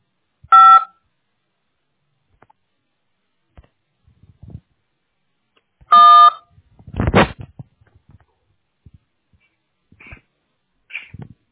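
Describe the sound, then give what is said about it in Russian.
Telephone dialing tones sound while a call is transferred to technical support: two short electronic tone bursts separated by a long quiet gap, with faint clicks and a brief noisy burst after the second. “Ожидайте, пожалуйста, я вас соединю с технической поддержкой.”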